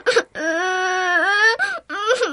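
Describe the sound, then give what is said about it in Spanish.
A girl crying loudly: one long, sustained high wail with a wavering pitch, then shorter sobbing cries after a brief break, all alone with no talk. “Ella que me saluda y yo que me pongo a llorar con todas mis fuerzas.”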